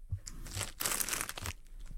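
Crackly crinkling of a bag being grabbed and handled, in several short bursts of rustling with a denser stretch in the middle. The sound is faint and has no talk over it.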